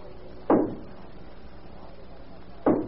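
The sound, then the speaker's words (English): Knocking at a door, heard as two single dull, heavy thuds about two seconds apart over a steady low hiss. “There's somebody knocking at the door.”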